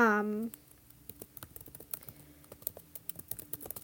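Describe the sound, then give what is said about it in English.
Typing on a computer keyboard: many quick, irregular clicks and taps after a brief voice at the start. “Sorry, I'm typing.”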